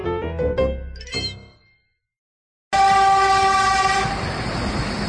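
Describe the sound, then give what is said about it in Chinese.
A passing train blares a loud, sustained horn over a rushing, rumbling roar that starts abruptly after a short silence and holds steady to the end. “火车呼啸而过”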